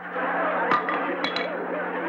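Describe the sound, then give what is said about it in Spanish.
A hammer dropping onto the floor in a shoemaker's workshop: a few sharp metallic clinks and clatters, short and bright, over a steady low hum. “Se me volvió a caer el martillo.”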